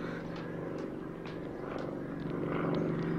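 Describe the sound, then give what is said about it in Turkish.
An airplane comes back toward the listeners, its engine a steady, low, droning hum with a buzzing tone that slowly grows louder. “Dinleyin, uçağın sesini duyuyorum. Geri geliyor.”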